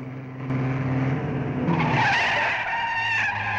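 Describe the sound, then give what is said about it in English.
A car braking hard on a village road: a low engine drone gives way to a loud, sustained tire squeal that holds for about two seconds before easing. “Up ahead, a woman crosses the road in front of them, and Frances slams on her brakes.”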